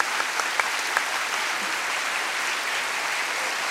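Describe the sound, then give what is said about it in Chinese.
Applause from a church audience thanking Sunday school teachers, staff and mentors: steady, even clapping throughout, with a few louder individual claps standing out near the beginning. “请你起身给我们一掌声”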